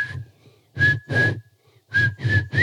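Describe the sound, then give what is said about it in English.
Whistling of a short tune in imitation of a pet cockatiel: a few clear, high whistled notes in two groups, with a brief gap between them and a slight upward bend in pitch at the end. “my cockatiel, his name was Mo after the Three Stooges, but he would do the Ed, Ed, and Eddie. He would whistle it, but he would only get so far. He'd go,”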